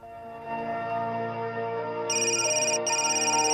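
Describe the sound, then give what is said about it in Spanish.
A telephone rings at the opening of a film trailer, its electronic trilling tone entering over sustained tonal music in two ringing bursts separated by a short gap. “primero el, tráiler o parte del mismo, que precisamente se inicia con esa llamada, con esa trágica noticia que recibe eh, Martin Sin”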